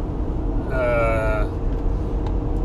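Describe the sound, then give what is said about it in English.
A drawn-out, high squeak with a ringing overtone rises from a trailer being towed on a very bumpy road. It sits over a steady, loud low rumble of road noise that runs through the whole clip. “I'm pulling a trailer, it's squeaking. I don't know if you can hear that. And the road is ridiculously bumpy.”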